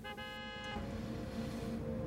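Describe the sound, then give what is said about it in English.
A car horn blasts once from a car behind, a faint, bright, steady honk lasting under a second. It gives way to low engine and traffic rumble. “A car behind beeps its horn.”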